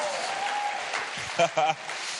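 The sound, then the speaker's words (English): Audience applause at a talk: a steady crackling clatter of many hands clapping, with a brief voice rising over it near the end. “Come on, give me a round of applause for a little bit of humour.”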